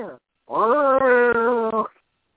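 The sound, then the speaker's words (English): A cat yowls during a squabble between cats: one drawn-out, wavering meow of about a second and a half, after a brief cut-off cry. “Your cats don't seem to like my cat.”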